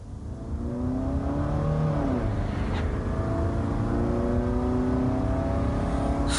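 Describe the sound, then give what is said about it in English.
Car engine revving and accelerating as the vehicle is driven recklessly, a loud, steady droning roar with strong engine tones that carries on without pause. “Even though his grandson is injured in hospital, Peter drives recklessly and takes unnecessary risks on the journey.”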